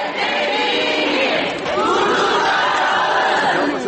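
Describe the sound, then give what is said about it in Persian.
A crowd of protesters in Turkey demonstrating against violence toward women, a loud, continuous mass of many voices shouting together without a break. “صدای اعتراض مردم ترکیه به خشونت علیه زنان است.”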